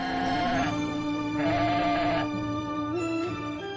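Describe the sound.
A person imitates a sheep, bleating several times from the heart in an old custom: a few loud, drawn-out, wavering nasal bleats that run together without a break.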